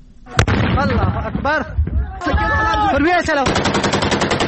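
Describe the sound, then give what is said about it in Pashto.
Gunfire in a border clash between Taliban fighters and Iranian border police in Kang district, Nimroz: a sharp shot near the start, then rapid repeated automatic bursts toward the end, with voices talking over much of it. “احمد تکل د دې ډزو جګړې په اړه رپورت لري چې د ډزو په غږ پیلېږي”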